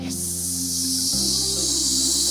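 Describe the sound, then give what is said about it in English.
A voice imitates a snake's hiss with one long, loud, steady breathy hiss that lasts over two seconds above a low tonal background. “He listened for the sound of the snake. Do you know the sound that a snake makes?”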